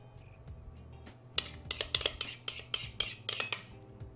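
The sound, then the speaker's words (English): A spoon clinks and scrapes while layering ricotta over sweet potato, producing many short, bright metallic taps and scrapes in an uneven rhythm, moderately loud, with no talking. “Next, I'm just going to layer the ricotta on top, and I'm even using the same spoon.”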